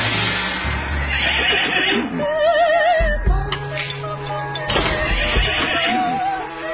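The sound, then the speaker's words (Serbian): Horses snort and neigh: a shrill, wavering whinny stands out midway among breathy snorts over a low rumbling background, with no voices. “Čujete li? Da, dobro ste čuli. Konji frkću”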